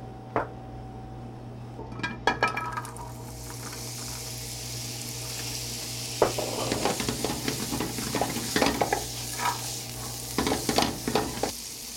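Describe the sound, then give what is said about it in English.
Butternut squash frying in a hot pan with olive oil: a constant bright sizzle, broken by intermittent scraping clicks of stirring in a few short bursts, with no talk. “Now that our pan is nice and hot, I'd like to start with the butternut squash.”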